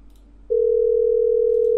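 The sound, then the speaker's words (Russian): A steady, loud, unbroken telephone line tone on an IP telephony call starts abruptly after a short quiet moment and holds at an even pitch to the end. “Бля, ребята, IP-телефония пиздец шустро набирает. Номер занят.”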